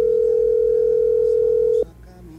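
Telephone dial tone heard while a call is being dialed: a steady, single-pitch hum that holds loud and unbroken, then cuts off abruptly with a click, leaving quieter background.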